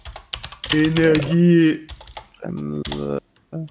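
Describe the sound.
Typing on a computer keyboard to search Google: quick, irregular key clicks come in short bursts while a person talks over and between them.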